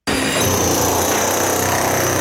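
Pneumatic hammer chiselling out an old locker-room wall during a renovation, starting abruptly and then hammering in a loud, continuous, rattling blast that holds steady throughout.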